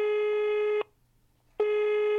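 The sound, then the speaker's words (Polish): A telephone ringback tone while a call is placed to a municipal family-assistance office in Lublin: a steady buzzing tone that cuts off, pauses almost a second, then resumes. “Zadzwoniłam do Miejskiego Ośrodka Pomocy Rodzinie, aby sprawę wyjaśnić.”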